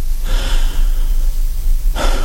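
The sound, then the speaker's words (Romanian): A long, deep inhalation drawn in for well over a second, then the start of a second breath, over a low steady hum. “Respiră adânc.”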